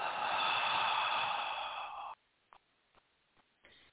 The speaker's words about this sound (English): Take in a nice deep breath. And hold. And exhale.